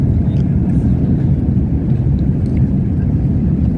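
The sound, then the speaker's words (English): Loud, steady low roar inside a heavy airliner's passenger cabin during its takeoff roll, heard from a right-hand window seat beside the wing. It is a dense, continuous rumble with no distinct separate events. “a passenger view from the right-hand side of the aircraft at the window and looking at the right wing as they are in their takeoff roll. So let's see what happens when I push this button right here.”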